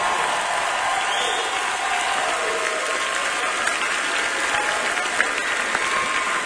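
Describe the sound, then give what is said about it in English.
A Grand Ole Opry audience gives a standing ovation for a performer's debut, with dense, continuous clapping from a large crowd that stays level and unbroken throughout. “Well, for everybody listening on WSM Radio, that's a standing ovation for Dave Fenley on his Grand Ole Opry debut.”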